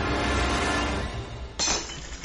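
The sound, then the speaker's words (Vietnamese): A flower vase and an incense bowl fall from a shaking altar and shatter on a brick floor. A noisy crash of breaking glass and ceramic rings on, with a sharper burst of clinking fragments near the end. “Lọ hoa bát hương đổ xuống nền gạch rồi vỡ tan tành.”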